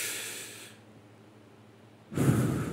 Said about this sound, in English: I want you to all just kind of at the same time, I want you to take in a big deep breath.